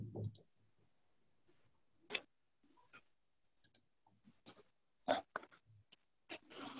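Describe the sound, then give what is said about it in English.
Mouse button clicks: a few sharp, distinct clicks stand out over faint rustling and quiet handling noise, with long gaps between them. “There's just one more button I have to click to”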